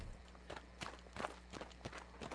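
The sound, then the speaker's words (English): Faint footsteps of two men hurrying through deserted streets in a radio drama, many steady, evenly spaced steps over a low constant hum. “And now Ed Richards and Harry Cox are hurrying through deserted streets from opposite directions.”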